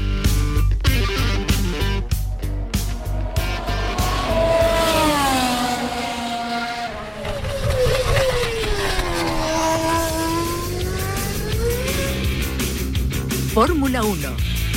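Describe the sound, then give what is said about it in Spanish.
Formula 1 cars during practice at the Jerez racing circuit: a loud, high-revving engine whine that sweeps up and down in pitch over a continuous roar. “Fórmula 1. Ese sonido pone los vellos de punta, grabado en el circuito de Jerez cuando teníamos entrenamientos de Fórmula 1.”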